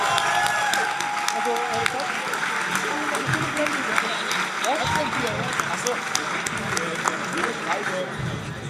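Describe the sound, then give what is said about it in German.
An audience at a live team presentation event applauds, with a continuous wash of clapping running alongside voices talking over it. “Jetzt Applaus, Applaus!”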